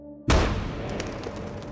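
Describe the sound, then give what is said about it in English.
A single gunshot from a bolt-equipped firearm: one sudden, loud report after a moment of quiet, with a heavy rumbling tail that lingers and slowly fades. “Pointing the firearm away from himself, he squeezes the trigger once more.”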